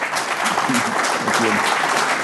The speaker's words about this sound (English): So please, give him applause.